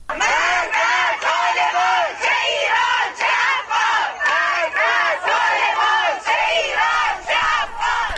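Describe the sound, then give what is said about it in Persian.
Protesting families chant at a rally in front of the education department in Tehran's District 2. The crowd's voices are loud, repeating rhythmic slogans in steady, pulsing phrases with no break. “این صدای خانواده های معترض است در تجمع مقابل آموزش و پرورش منطقه 2 تهران.”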